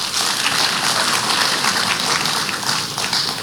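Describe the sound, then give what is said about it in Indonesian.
An audience applauds the supervisory board at a formal corporate gathering: dense, steady, hissing applause from many hands, even in level throughout with no voices over it. “Bapak Ibu, mari kita berikan aplaus kepada Dewan Pengawas kita.”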